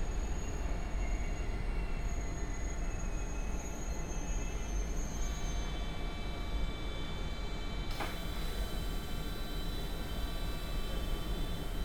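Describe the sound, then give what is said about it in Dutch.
A train enters the platform at Brussels-Midi station with a steady, heavy rail rumble, overlaid by high, sustained wheel-squeal tones and a brief metallic clank partway through. “Voie 21, le train sidérail à destination de Nivelles 8h16 entre en gare”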